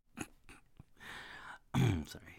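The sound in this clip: Throat clearing: a few soft clicks and short guttural rasps, then a longer hoarse push, ending in one loud, rough clearing burst.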